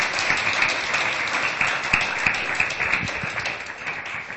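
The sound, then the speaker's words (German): An audience claps in church, many hands making a dense, steady patter that holds at an even loudness for the whole stretch, with no voices standing out. “How many of you are happy to be a Christian? Give Jesus. Wie viele von euch sind glücklich, ein Christ zu sein? Klatscht mal.”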